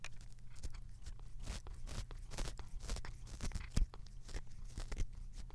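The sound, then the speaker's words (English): A cat licking a blanket makes many quick, rasping strokes in an uneven rhythm, fairly quiet and continuing throughout, with no voices. “That's the sound of my cat licking the blanket.”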